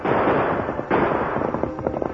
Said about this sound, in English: the Lone Ranger rode on in spite of the bullets thrown at him by the fleeing rancher